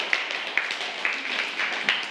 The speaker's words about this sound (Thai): ปรบมือให้กับกลุ่มที่2ด้วยค่ะ